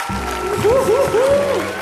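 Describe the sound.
Applause from an audience welcoming a performer onto the stage: a dense, steady patter of clapping with a voice sounding over it in the middle.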